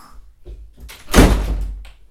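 A door is pushed shut with a single dull thunk, preceded by faint shuffling in an otherwise quiet moment.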